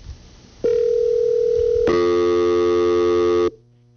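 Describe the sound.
Telephone line tones sound as an incoming call reaches a phone-in line. A steady mid-pitched tone is followed by a harsher, buzzier multi-tone chord that holds for a moment and then cuts off abruptly.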